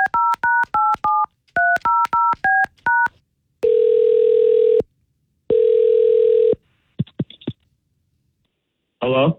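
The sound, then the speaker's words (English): A telephone number is dialed on a touch-tone keypad as two quick runs of short beeps. Two long, steady ringing tones follow, then a few faint clicks and a brief sound at the very end. “Let's call Brian and find out what's going on.”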